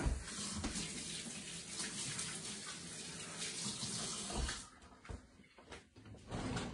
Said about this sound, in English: Let me wash my hands.